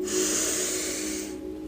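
A deep breath in through the nose during a relaxation breathing exercise: one long, steady, airy inhale lasting about a second and a half, fairly loud and hissing, with no talk.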